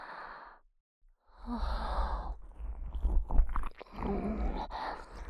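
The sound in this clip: Ear-licking ASMR mouth sounds: soft wet tongue and lip noises mixed with breathy sighs, coming in irregular bursts after a brief silence near the start.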